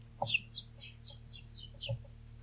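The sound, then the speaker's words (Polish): Birds chirp in a faint, quick series of high, short, downward-sliding notes, repeated at an even pace across the whole stretch, over a steady low hum. “Ptaszki.”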